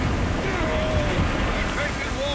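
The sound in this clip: Rough water and wind noise wash over an overloaded small boat crossing breakers with five men and heavy cargo aboard, a steady loud roar of surf and spray with no clear single crash, while voices speak over it.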